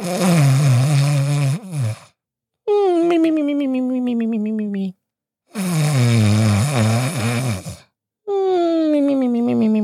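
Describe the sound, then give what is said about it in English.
A slapstick snoring sound effect: four loud, droning, voice-like snores in a steady rhythm, each bending in pitch, separated by short silent gaps. “not exactly like that though. That's from the Three Stooges, but I was snoring.”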